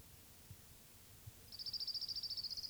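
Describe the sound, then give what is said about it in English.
An orange-crowned warbler sings a fast, even, high-pitched trill of many short repeated notes lasting just over a second, after a quiet stretch with a few faint low taps. “May 13th, 1992, Orange Crown Warbler number 2.”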